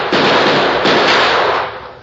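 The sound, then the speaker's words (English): Gunshot from a pulled gun in a tense standoff: two loud, sharp blasts, each followed by a broad, noisy roar that slowly fades. “Watch out! He's pulled a gun. So have I.”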